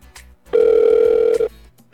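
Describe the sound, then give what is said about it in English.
Telephone ringing tone on a phone line: one steady, buzzy mid-pitched tone lasting about a second, sounding alone between short stretches of quiet low hum. “So we're gonna call him on the phone line right now.”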